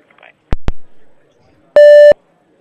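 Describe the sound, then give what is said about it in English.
A voicemail recording beep: a single steady, mid-high electronic tone that cuts in cleanly and stops abruptly, preceded by two short clicks. “Alright, let me leave a voicemail.”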